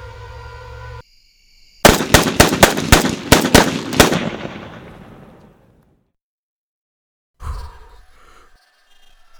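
Gunfire in a video game, aimed at Slender Man: a rapid string of loud, sharp shots over about two seconds, their echoes trailing off into silence, then a brief low thump near the end.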